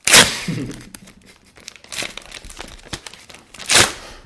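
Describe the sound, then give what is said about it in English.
Crinkling and tearing as a crisp white envelope sealed with a thick, sturdy layer of brown duct tape is opened. Loud rustling bursts at the start and near the end frame a few softer crackles and rips in between. “It's a beautiful, crisp, white envelope with a thick, sturdy layer of brown duct tape.”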